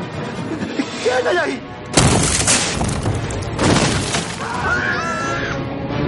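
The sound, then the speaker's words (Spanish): Heavy pounding on a door in a fantasy film scene: a couple of loud, booming blows with a broad, crashing thud, separated by a short pause. “Alguien golpea la puerta.”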